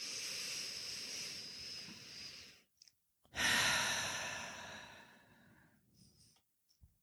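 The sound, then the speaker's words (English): Deep breathing, a big breath drawn in through the nose and let out through the mouth: two long, airy breath sounds with no talk, the second starting loud and fading slowly into a softer tail. “Let's take a big, deep breath through our nose, in our belly, feel it in your belly, not in your shoulders, and just out through the mouth.”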